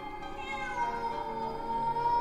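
A cat meows outside a house in one long, drawn-out, steady cry, fairly faint and sustained throughout.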